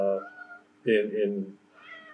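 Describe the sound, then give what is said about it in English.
An upset male cat meows in a few drawn-out, wavering cries, the middle one loudest and longest, with quiet gaps between them. “my cat just showed up, so we'll say hi. Hello. He's very upset”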